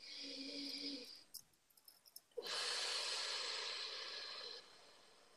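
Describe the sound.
Breaths are drawn during a guided healing meditation. A shorter breath with a faint tonal edge comes first, then after a quiet pause a longer, louder, airy rush of breath that fades out.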